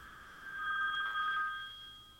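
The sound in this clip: Telephone ringing with a steady, high electronic tone that swells and fades in one sustained ring, faint against a quiet background.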